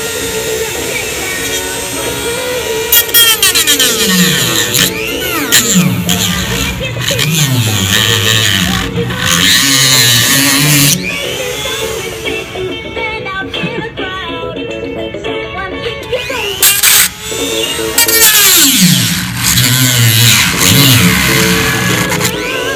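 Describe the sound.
High, whining Dremel rotary tool working on a singing Groot toy. The motor runs steadily and revs up and down, with the toy's looping sung voice and people talking over it.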